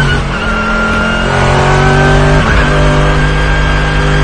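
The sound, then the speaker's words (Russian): Race car engines roar during the Nürburgring 24 Hours as a Mercedes GT tries to overtake a Logan, a loud, steady, high-revving drone with a brief shift in pitch midway through. “этот Логан, на Нюрнбургринге 24 часа. Это 24-часовая гонка была. Вот GT. Мерседес GT пытается его обогнать.”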